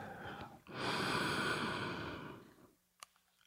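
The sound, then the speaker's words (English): Just before a poetry reading, a deep, airy breath is drawn in steadily for about two seconds and stays loud throughout. It ends abruptly, and a faint short click follows in the quiet afterward. “let's take a deep breath.”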